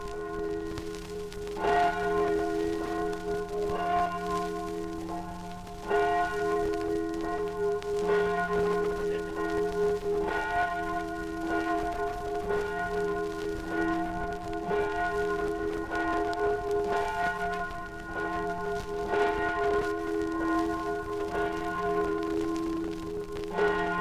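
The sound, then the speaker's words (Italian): The bell of the church of San Giorgio in Resia, the oldest church in the valley, rings the evening Ave Maria in a 1955 archive recording. It strikes many steady, evenly spaced strokes with a humming ring between them. “il suono della campana di San Giorgio di Resia, la più antica chiesa della valle, riaccende ogni sera nel raccoglimento dell'ave”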